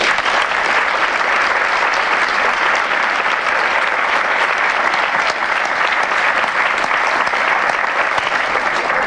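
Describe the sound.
An audience applauds to welcome guests onto the stage, with many hands clapping in a dense, even wash that holds steady and loud for the whole stretch.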